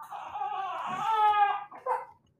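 A baby fusses and cries in several wavering, whimpering bursts that build to a louder wail, then break off into a short final sob before falling quiet.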